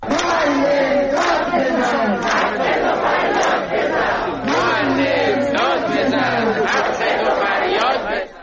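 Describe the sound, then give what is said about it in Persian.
Protesters chant loudly at a protest in Tabriz, Iran: a crowd of voices shouting in unison with a steady, rhythmic cadence that carries on without a break. “در اینجا اگر اجازه بدید یک سری بزنیم به بخشی از اعتراض هایی که در تبریز بوده و بشنویم صدای معترضان در تبریز رو.”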